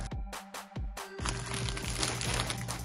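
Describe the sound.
A padded shipping package is opened with faint crinkling and rustling plastic. A few sharp crackles come first, then a continuous rustle.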